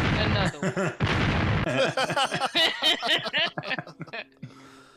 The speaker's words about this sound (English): Drop that bomb. Yeah. Four bombs. Absolutely. Another one.